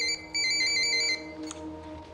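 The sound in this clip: A mobile phone's electronic ringtone for an incoming call plays a bright, repeating melodic tone, breaks off briefly, resumes for about a second, then stops, leaving a low, steady hum.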